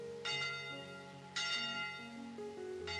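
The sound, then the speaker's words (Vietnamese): Church bell ringing from afar, three resonant strikes about a second apart, each with a long humming decay that carries into the next. “Khi đi xin ăn trước căn nhà lạ, tôi nghe tiếng chuông từ đằng xa vọng lại.”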